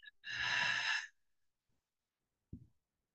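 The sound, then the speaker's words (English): Breathing out through the mouth during a breath-work exercise: one long, forceful, breathy exhale with a faint voiced, sigh-like tone, lasting just under a second. A brief soft sound follows after a pause. “Inhale through the nose and out through the mouth.”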